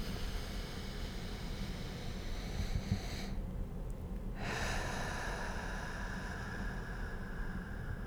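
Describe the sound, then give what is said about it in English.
Slow, deep, deliberate breath taken during a guided relaxation check-in: a long, airy, hissing breath sound that stays steady and broad, with a brief lull near the middle and no talk. “taking a nice, deep, very slow, very gentle, intentional breath.”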